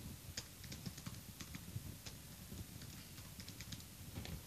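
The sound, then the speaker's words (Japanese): Quiet, rapid clicking of a computer keyboard as a Microsoft account name is typed, many light keystrokes at an uneven pace with no talk over them. “でここでマイクロソフトアカウント入れたいと思います。”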